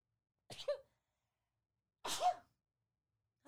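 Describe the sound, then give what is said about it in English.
Sneezes from one person: two sharp, loud, breathy bursts about one and a half seconds apart, each with a short voiced tail, and a third just beginning at the very end, with silence between. “And I'm getting ready to sneeze.”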